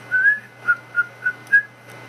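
Someone whistles five short notes over a low, steady hum. The first note is longer and rises slightly; the other four are brief, evenly spaced and fairly faint.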